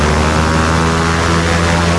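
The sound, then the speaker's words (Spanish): Propeller engines of an airplane carrying over 6,000 letters roar at full power in a loud, steady drone with a strong low hum that holds for the whole stretch. “El avión se sacude. Los motores empiezan a rugir, primero indecisos, después con fuerza.”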